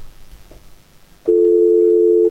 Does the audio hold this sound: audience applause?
no